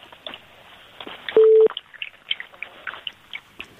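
A single short, steady telephone line beep sounds as a caller is connected. Scattered faint crackles and clicks on the phone line come before and after it.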